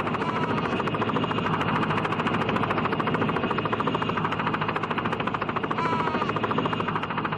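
A small helicopter in flight carrying a pilot and passengers: a loud, steady, rapid chopping of rotor blades over a dense engine roar, unbroken from start to finish.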